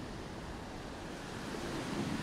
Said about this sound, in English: Ooh, big wave. Ooh. That wasn't as big. I thought it would be bigger.